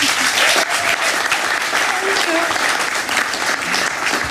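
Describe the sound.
Loud, dense applause from an audience welcoming two guests onto a stage, sustained and even throughout with no break.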